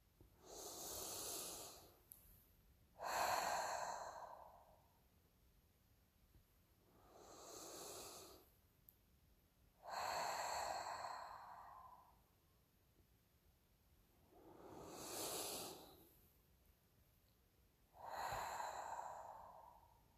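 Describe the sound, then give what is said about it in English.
Three slow deep breaths during a guided meditation, each drawn in through the nose and let out through the mouth. Six broad, airy breath sounds come at an even, unhurried pace, with quiet gaps between them and no talking. “let's take 3 deep breaths in through your nose, out through your mouth.”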